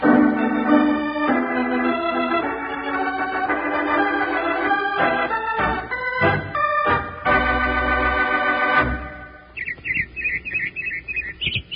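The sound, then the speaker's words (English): Robin singing in spring: after a long stretch of music, a quick string of high, bright, repeated chirps rises alone near the end. “That's a robin singing.”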